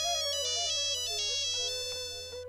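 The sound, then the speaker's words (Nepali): A phone ringing with an electronic melodic ringtone: a bright, harmonically rich tune of quick stepping notes that plays continuously at a steady, fairly loud level, easing slightly toward the end. “Phone पनि कति हो कति आको आइछ।”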